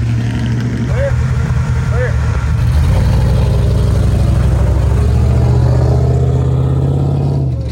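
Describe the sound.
A race car engine roars as the car sets off on its second lap with a passenger in the co-pilot seat: a loud, continuous, throaty drone that holds steady and strong throughout.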